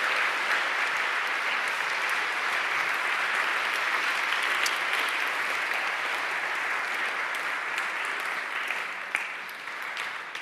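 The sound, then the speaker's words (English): Sustained audience applause for a guest at a Christian gathering, a dense, even roar of many hands clapping for about ten seconds that eases slightly toward the end. “Shall we give Marsha a round of applause?”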